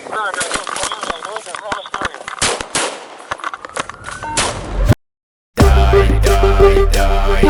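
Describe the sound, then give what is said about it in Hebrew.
Gunfire at a police square in Hadera: many rapid, sharp cracks in dense, irregular bursts for about five seconds, then a brief silence before a loud, sustained, dense stretch of sound. “אני מדבר מכיכר המשטרה בחדרה, יש פה יריות. יריות”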